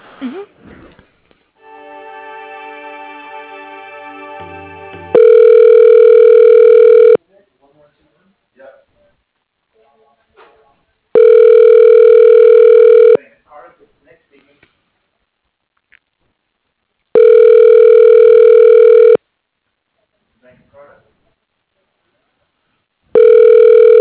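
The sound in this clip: Telephone line tones as a call is transferred to voicemail: a short buzzing tone, then three long, steady tones of about two seconds each, separated by pauses with faint sounds, and the start of a fourth.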